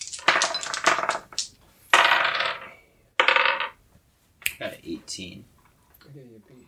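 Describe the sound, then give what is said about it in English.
Dice roll on a table during a tabletop game, several quick clattering rattles separated by short pauses, with voices heard near the end. “He rolls a single die. So everybody roll.”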